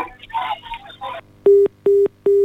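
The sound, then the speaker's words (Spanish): A busy tone after a phone call is cut off. Three steady, mid-pitched beeps of equal length follow a short stretch of muffled telephone voice, with brief silent gaps between them. “Se le cortó. Se le cortó. A ver si que se contacta nuevamente con nosotros.”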